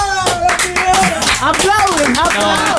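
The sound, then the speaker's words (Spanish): Hands clap repeatedly in quick, fairly regular beats, partly masked by loud, excited voices talking and cheering over them. “¡Aplauden!”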